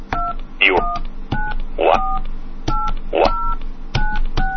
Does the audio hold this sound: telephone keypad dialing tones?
yes